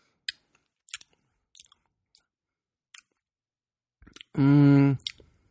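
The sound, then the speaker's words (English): Chewing on a bite of a peanut butter snack, heard as a few soft, sparse mouth clicks, followed by a short hummed voice near the end. “I'm taking a picture of it after I took a bite of it. No, it's okay. I taste peanut butter.”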